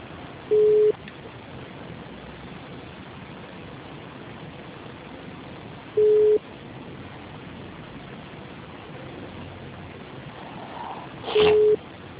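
Telephone line tones after a dropped call: three short, steady mid-pitched beeps spaced several seconds apart over constant line hiss, with no voices.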